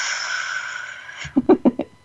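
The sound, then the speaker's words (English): A long, steady breath taken as a calming group breath, an even hiss lasting over a second, followed by a few short, soft voiced sounds. “let's take a breath as we lift all of this up, and it's a steady and calming present breath and supportive.”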